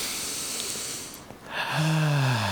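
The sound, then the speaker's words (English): A deep breath: a long, airy hiss of inhaling, then a voiced, sighing exhale that falls in pitch. “Just treat yourself to a good old deep breath in. One more.”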